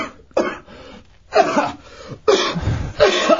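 A person choking and coughing: four rough, strained bursts separated by short pauses, some carrying a voiced, throaty edge.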